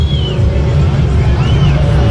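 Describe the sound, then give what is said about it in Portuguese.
Football stadium crowd booing during a match, a steady roar of massed voices that never lets up, with a couple of shrill whistle-like sweeps above it and talk over the top. “E as vaias, com certeza.”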